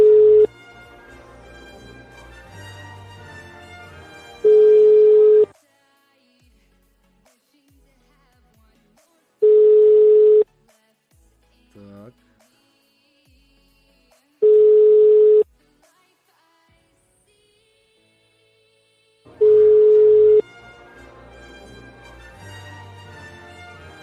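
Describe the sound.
Telephone ringing tone after dialing a number. Four steady, mid-pitched tones, each about a second long, repeat at even intervals of roughly five seconds with quiet gaps between. A denser tonal sound surrounds the first and last tones.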